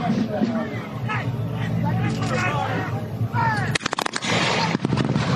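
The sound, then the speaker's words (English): A ragged musket volley fired by infantry in a battle bursts out after several seconds of crowd hubbub and voices: many sharp bangs in quick succession, then one more shot a moment later, all loud over the murmur. “They saw the Americans were about to fire on them, and they knelt down to avoid that volley.”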